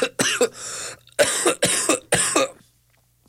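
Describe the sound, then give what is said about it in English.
Harsh, loud coughing comes in two bursts: a quick pair, a short pause, then a longer run of several rough coughs, followed by near silence. “You hear those coughs?”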